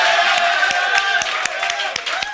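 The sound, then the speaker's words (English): An audience applauding with scattered, distinct hand claps over a steady murmur of voices, moderately loud and continuing to the end. “So audience, if you want to applaud them, you can do that.”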